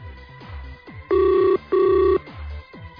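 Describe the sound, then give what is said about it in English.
A telephone rings while a call is being placed: two loud, steady ringback tones separated by a short gap, over a faint rhythmic background. “So let's give him a call right now.”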